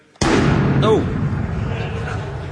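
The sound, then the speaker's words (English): Enemies fire back in a video game: one sudden loud blast bursts out, then trails into a long roaring decay, with a brief voice exclaiming over it. “Oh, they're firing back at us.”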